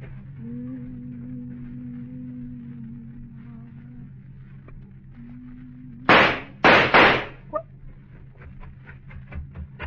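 Gunshots ring out as a few sharp, loud bangs in quick succession, followed by a smaller crack, cutting across the steady low hum of a car engine left running.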